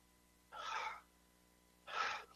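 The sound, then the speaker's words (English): Two sharp nasal sniffs as a person with congested nostrils tries to clear them. Each is a short, breathy burst, and a pause of about a second separates the two. “I can't breathe good, so I've got to keep my nostrils cleaned out here just a second.”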